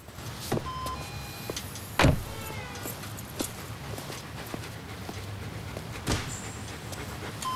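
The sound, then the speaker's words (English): A Volvo Estate with a dog on the front seat rolls into a 7-Eleven car park, a low, quiet engine murmur broken by a few sharp knocks and clunks. “Ethan drives his Volvo Estate, complete with dog on the front seat, into the car park of a 7-Eleven store.”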